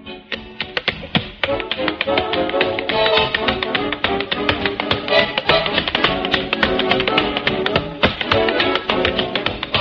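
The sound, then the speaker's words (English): Tap dance steps, a rapid and dense stream of crisp metallic taps in quick, syncopated patterns that continue without pause at a lively, fairly loud level. “here's what I call dancing them out of Harlem”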